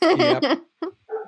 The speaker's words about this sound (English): There's the dogs.